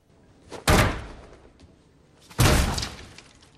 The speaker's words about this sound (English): shakes his head and punches a cubicle door.